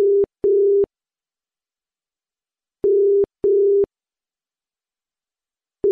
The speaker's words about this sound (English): Let's see if she picks up this time.